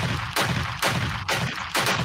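Gunshot sound effect used to introduce a segment called Shots Fired: a quick run of sharp, loud blasts, about half a second apart, each with a ringing tail and no voices.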